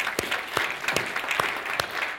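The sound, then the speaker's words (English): Audience applause at an afternoon event honoring its organizers: steady, dense clapping from a crowd at moderate loudness, with a few sharper individual claps standing out. “I think they deserve a round of applause.”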